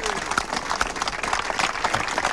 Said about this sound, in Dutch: Echt een groot applaus